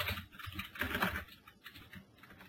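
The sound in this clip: Computer keyboard keys are pressed to enter Alt Enter in Excel. A quick burst of several crisp taps is followed by softer, scattered clicks, all fairly faint.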